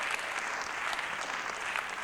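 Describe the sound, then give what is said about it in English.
Audience applause from a crowd of Elkins locals: dense, steady clapping with scattered brighter claps throughout, at an even level with no speech over it. “And I just thought maybe we'd sort of clap. First of all, who's here, who actually lives here in Elkins?”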